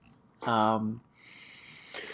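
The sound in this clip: A person exhales heavily: a brief voiced sound gives way to a long, breathy rush of air, with a faint sharper breath at the very end.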